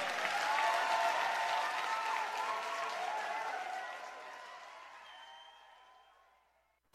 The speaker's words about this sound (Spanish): Aplauso para Pablo Cifuentes